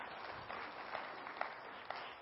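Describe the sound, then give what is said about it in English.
A church audience applauds a visiting pastor at the close of a worship service, producing faint, steady clapping with a few slightly sharper claps standing out. “Thank you for joining us in worship. Yeah, let's give him a hand.”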